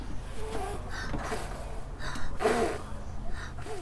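A child blows out birthday candles with a short puff of breath, a single brief breathy burst against faint background noise.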